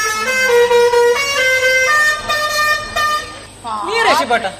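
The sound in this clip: A loud vehicle horn sounds a stepped series of sustained tones, each holding one pitch before shifting to the next, followed by a warbling, sweeping tone near the end.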